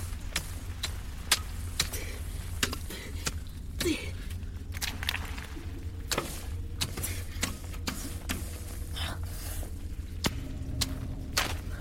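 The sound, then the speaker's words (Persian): A pickaxe strikes the wall inside a tunnel: many sharp, short knocks at irregular intervals, heard over a steady low hum. “توی تونل و با کلنگ به دیوار روبرو ضربه میزنه”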